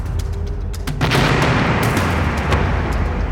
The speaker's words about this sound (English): I feel the blast briefly push me backwards.